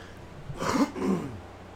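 Throat clearing from a person, two rough, raspy bursts in quick succession, moderately loud and alone with no talk over them.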